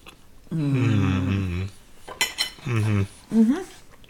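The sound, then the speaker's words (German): Cutlery clinks against plates as people start eating a meal, brief chinks and scrapes between voices. “So, bevor wir loslegen, einmal guten Appetit.”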